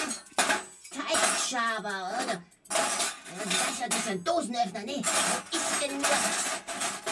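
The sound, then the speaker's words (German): Kitchen utensils, a whisk among them, rattle and clink as they are rummaged through, a busy stream of metallic clatter and scraping that runs almost without pause. “Oh, Moment mal. Das ist ein Schneebesen.”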